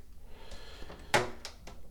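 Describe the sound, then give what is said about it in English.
A door is opened with one sharp latch click or clunk, set among a few softer knocks and handling sounds over a faint low hum. “So let's open the door.”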